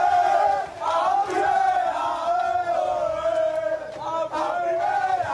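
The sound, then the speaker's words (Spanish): Málaga footballers cheer and shout as they burst into a press room while their coach is speaking to the media, celebrating a big achievement. The loud, continuous group shouting and chanting runs through the whole stretch. “El sonido que están escuchando son los jugadores del Málaga irrumpiendo en la sala de prensa donde Funes estaba ofreciendo declaraciones a los medios de comunicación.”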